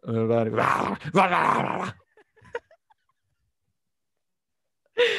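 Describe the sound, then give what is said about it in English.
A man imitating a dog with voiced growling and whining noises in two loud bursts. A few faint sounds follow, then a long silence before another vocal burst at the very end. “he does one of the best impressions of a dog I've ever seen, and he goes,”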